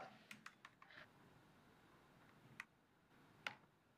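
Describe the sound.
Typing on a computer keyboard, heard as faint, sparse keystroke clicks: a handful of taps scattered over a quiet background with pauses between them.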